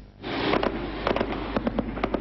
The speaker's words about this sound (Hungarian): Egymás után csapódnak be a gránátok a menekült tábor romjai közé.